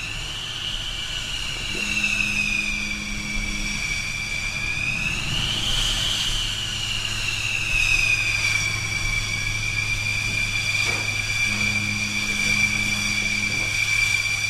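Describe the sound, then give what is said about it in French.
A Rafale fighter jet's engine running on an aircraft carrier catapult before launch, a loud steady high-pitched whine that swells briefly around the middle over a constant low rumble, with occasional lower hum layers entering and fading. “Autorisation d'emmise en batterie. Donc là, ce rafale, il faudra le sortir à 134 nœuds.”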